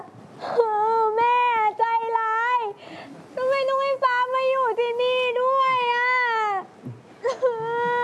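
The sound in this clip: A young girl cries and whimpers on arrival at school, not wanting to stay. Long, high, wavering wails come in several drawn-out bouts separated by short catches of breath and sobs.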